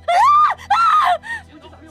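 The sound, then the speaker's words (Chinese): A scream rings out as two loud, high-pitched wailing bursts, each with a brief rise and fall in pitch, followed by a weaker, fading cry. “这时尖叫声再度响起。”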